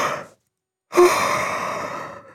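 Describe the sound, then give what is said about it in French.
A long, drawn-out yawn voiced by a storyteller in a gentle bedtime tale about a soft cuddly toy: after a brief silence, one breathy, sighing yawn swells and then slowly fades over more than a second. “Tout doux, mon doudou bâille. Il bâille à s'en décrocher la mâchoire.”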